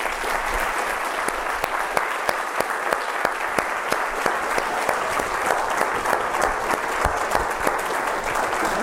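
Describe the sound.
Audience applause welcomes a speaker at UC Santa Barbara: a dense, steady wash of many hands clapping, unbroken for the whole stretch.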